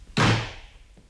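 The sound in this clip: A heavy knock lands on a door, one loud thudding blow with a long decaying tail, followed by a much fainter second thump near the end, with no voices.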